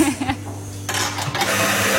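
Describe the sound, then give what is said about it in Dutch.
A large professional coffee machine making cappuccino with plant-based milk starts a loud, steady rushing whir partway through and keeps it going to the end. “En de koffie hier, het grote koffieautomaat. Ja, ja, echt een professionele machine.”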